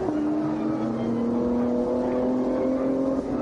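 Engine roar of a Porsche 992 race car on a bumpy track through the Schumacher S's as its back end breaks away, a loud, steady droning note with strong layered harmonics that holds without a break.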